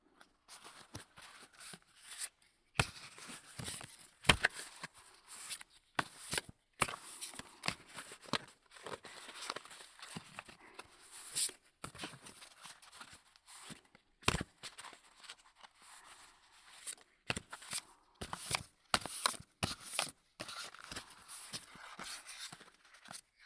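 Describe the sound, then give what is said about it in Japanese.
Playing cards are worked through a Hindu shuffle, giving many soft, crisp flicks and slaps in an irregular rhythm. The sound is faint and close, with no voices. “右耳からド定番のヒンドゥーシャッフル。”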